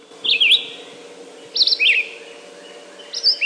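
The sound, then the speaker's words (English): A red-eyed vireo sings three short, high, warbled phrases separated by brief pauses. The song is clear and alone, with no voices. “That's the song of the red-eyed vireo.”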